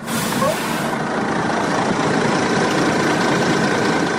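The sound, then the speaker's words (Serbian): A bus carrying about 80 migrants from Middle Eastern countries idles as it stops about 4 km from the Horgoš border crossing. Its heavy engine gives a steady, loud rumble under a broad hiss that continues throughout. “Autobus sa oko 80 migranata izbjeglih iz država Bliskog istoka zaustavlja se na oko 4 km od graničnog prelaza Horgoš.”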